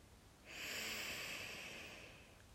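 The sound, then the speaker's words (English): A single deep, slow breath drawn through the nose during a guided breathing exercise, a soft airy hiss that swells in at about half a second and holds steadily, easing slightly toward the end. “In through the nose and out. And one final breath in”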